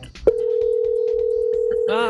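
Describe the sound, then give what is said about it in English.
A telephone dial tone sounds as a phone number is about to be dialed. The tone starts with a click just after the beginning and hums steadily and loudly to the end, with faint voices underneath and a voice over it at the close. “I'm gonna get the number dialed.”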